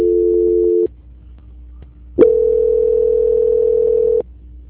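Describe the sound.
Telephone line tones during a call transfer: a steady electronic tone under a second long, then a pause, a click, and a second steady tone lasting about two seconds.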